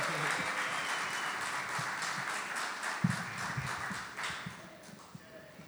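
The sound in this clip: An audience applauds to welcome performers onto an acoustic stage. The clapping is dense and steady at first, then thins toward the end, leaving a few scattered claps.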